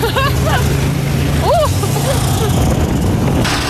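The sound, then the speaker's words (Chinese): Snowmobile engine carrying a film crew and their camera gear uphill through snowy forest, driven carefully for a smooth ride: a steady low drone runs throughout, with people talking over it. “由于摄制组成员都需要携带拍摄设备，乘坐雪地摩托上山，因此驾驶员师傅开得格外小心，确保行驶平稳。”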